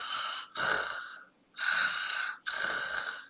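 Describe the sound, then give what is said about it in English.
A voice imitates snoring and snorting, as in sleep apnea, demonstrated for children: a few harsh, breathy, rasping bursts separated by short pauses, loud and without speech. “Yogi Bear is lying on his back. And then he's snoring, and I always demonstrate this to the kids in my practice. I go,”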